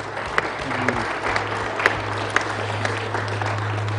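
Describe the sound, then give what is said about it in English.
Applause from a church worship service audience: continuous, even clapping with a few sharper claps standing out, over a steady low hum. “come on, let's applaud him.”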